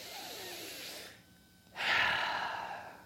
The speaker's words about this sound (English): Let's breathe in together.